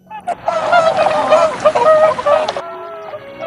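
Ruddy shelducks calling: loud, nasal, honking calls that overlap one after another for a few seconds, then drop to fainter calls near the end.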